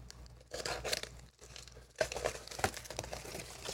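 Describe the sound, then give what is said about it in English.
Tape being torn off a device, quiet ripping and crinkling sounds in irregular bursts, with a brief pause midway before a louder run of tearing. “It's a lot of fucking tape. This thing is just full of tape. Like, it's just tape is all over the damn thing.”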